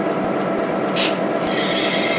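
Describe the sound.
A locomotive pulling out after an oil level check gives a loud, continuous rumbling grind with an even, unbroken texture throughout.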